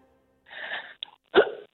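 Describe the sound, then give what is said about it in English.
A female tennis player's short hiccup-like grunt during play. A brief noisy scuffle comes first, then a sharp, loud vocal burst, with no talk. “Oh, it's almost like a little hiccup there.”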